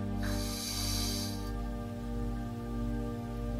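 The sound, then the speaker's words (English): A person breathes in and out during a guided breathing exercise: one long, airy breath rushes through for about a second, then fades, leaving a steady low hum underneath. “Inhale and hold it, and exhale and let it all go. One more time. Inhale.”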